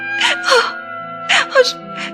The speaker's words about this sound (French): Cendrillon pleurait tellement qu'elle n'arrivait pas à répondre.